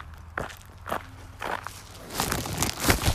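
Footsteps while walking a dog: three evenly spaced, faint steps, followed by a quicker, slightly louder run of shuffling steps.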